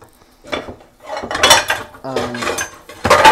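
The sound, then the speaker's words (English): Clattering of a mixing bowl being taken out and set down among dishes while preparing enchilada sauce and a mayonnaise mixture, in a few loud bursts of ceramic and metal knocks and scrapes. “Now I'm going to move these aside here. We're going to get out a mixing bowl because it'll give me enough room to work with for the sauce”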